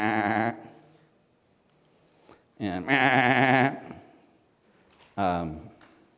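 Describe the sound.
Sheep bleat three times, loud and wavering, with quiet pauses between the calls; the middle bleat is the longest.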